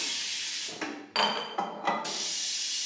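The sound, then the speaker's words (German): A stainless steel beer bottling machine hisses as it fills bottles and presses on crown caps. Several short, sharp bursts of hissing rise over a steady, airy hiss, with no talk. “Das Bier fließt, die Maschine presst den Kronkorken auf die Flasche.”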